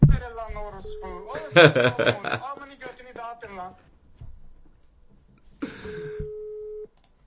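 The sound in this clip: An outgoing telephone call rings, heard as steady mid-pitched ringback beeps: the first sounds under a person talking, and a second beep of about a second plays alone after a short pause.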